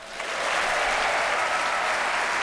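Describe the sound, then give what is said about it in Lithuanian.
Loud, sustained applause from an audience at a band's concert, a steady dense wash of clapping that holds at an even level from start to finish with no voices standing out. “Plojimai jam.”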